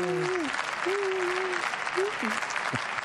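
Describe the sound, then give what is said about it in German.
Applause at a live stage show: continuous, dense clapping at an even level, with a voice speaking over it in short, pitched phrases. “Applaus, Applaus,”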